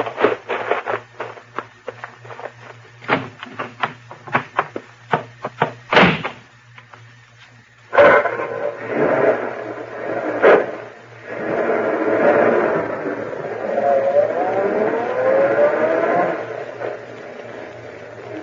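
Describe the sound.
Car driving away, preceded by a series of sharp clunks and door-like slams, then a sustained rumbling engine noise that swells and carries on for about ten seconds.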